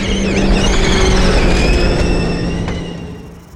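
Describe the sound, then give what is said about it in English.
Electric motor whine and drivetrain roar from an Audi RS Q e-tron off-road rally car accelerating at the Dakar 2022 rally. A loud, steady high whine rides over broad rumbling noise, climbing in pitch early and fading toward the end. “We accelerate, we have just electric power and it's really incredible, especially the, the torque, power, and response.”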